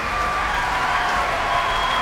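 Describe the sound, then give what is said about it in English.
A concert audience applauding, cheering and stamping for a conductor returning to the platform at the end of an evening, heard as a dense, steady roar of clapping and voices with no breaks. “Those stamps and cheers for Semyon Bychkov returning to the platform once again at the end of an exceptional evening”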